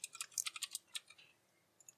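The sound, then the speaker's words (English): Keystrokes on a computer keyboard as a number is typed in by hand: a quick burst of many crisp, light clicks in uneven rhythm, then a pause and two softer taps. “I have to manually type in the number.”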